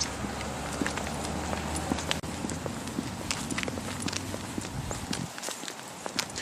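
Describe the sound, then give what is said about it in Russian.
Footsteps crunching small rowan berries underfoot, a quiet, steady run of many crisp, short crackles as someone walks along, over a faint low rumble that drops away near the end. “Они под ногами тут хрустят. Мы сейчас идем. Вот и они тут под ногами похрустывают.”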